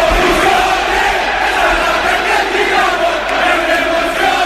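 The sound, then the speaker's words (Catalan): Milan supporters chant in a football stadium at San Siro, a dense, loud wall of massed voices that roars steadily throughout with no pause. “Fem la comprovació, així sona San Siro.”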